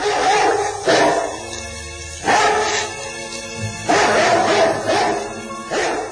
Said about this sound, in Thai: มีสุนัขนรกมากมายหลายตัวแต่ละตัวนั้นก็มีตัวใหญ่มหึมาต่างก็วิ่งกรูเข้ามาหมายขย่ำสัตว์นรกต่างๆเหล่านั้น